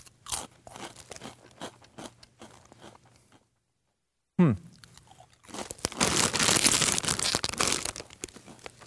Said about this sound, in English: here we go. Wavy Funyuns onion flavored potato chips.